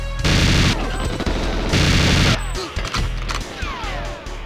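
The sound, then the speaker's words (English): Loud rapid automatic fire from the RCP-90 gun in the GoldenEye video game, two sustained bursts separated by a short gap, followed by sharper scattered shots and crashes. “Okay, so this is the RCP-90. It was. And this thing is the greatest freaking weapon in GoldenEye, man.”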